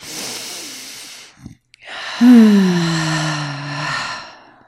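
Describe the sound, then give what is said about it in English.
A slow, deep inhale through the body during a guided breathing exercise, then a brief pause and a long, audible exhale carrying a low voiced sigh. “Just two more breaths like that. Just inhale into your whole body.”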